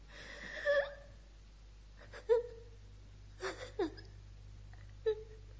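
A child whimpers and sobs in a few short, tonal bursts separated by quiet pauses. The cries are moderately loud and high-pitched, with no talk over them.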